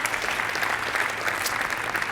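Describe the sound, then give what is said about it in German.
Warm applause from an audience at a stage event, dense and steady clapping that holds at an even level throughout. “Deswegen nochmal einen warmen Applaus.”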